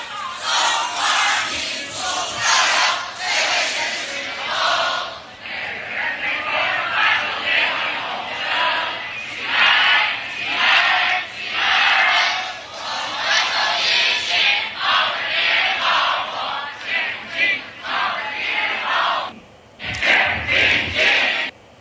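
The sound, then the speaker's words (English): A crowd sings the Chinese national anthem together. The loud, sustained mass of voices moves through phrases, breaks off briefly near the end, then resumes. “This is the Chinese national anthem by the Communist Party”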